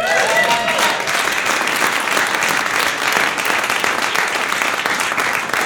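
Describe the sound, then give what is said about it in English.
Audience applause for musicians: dense, steady clapping from many hands that holds loud and even throughout. “Make some noise for the wonderful musicians.”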